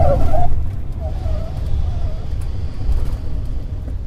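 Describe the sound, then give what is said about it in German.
Loud, steady low engine rumble from a 100-seat Embraer 190 airliner touching down with smoking tyres on a nearly new concrete runway, with faint higher tones drifting above. “Die 100-sitzige Maschine vom Typ Embraer 190 setzt spektakulär mit rauchenden Reifen auf der noch fast jungfräulichen Betonpiste auf.”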